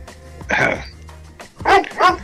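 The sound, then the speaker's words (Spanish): A dog barking: a few sharp, yappy barks, the last two coming close together after a short pause. “Ahí está el pichicho de fondo.”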